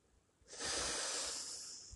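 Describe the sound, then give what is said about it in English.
A deep inhalation in a Hawaiian breath-sharing greeting begins after half a second of near silence, then holds as a steady, airy hiss for about a second and a half, fairly faint throughout. “they look each other in the eye and they go like this. Take a deep breath in.”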